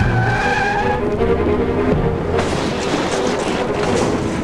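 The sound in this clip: A Jeep Cherokee reversing through a fence gate, with loud skidding tires and a roaring engine. The noise is dense and continuous throughout, and no voices are heard.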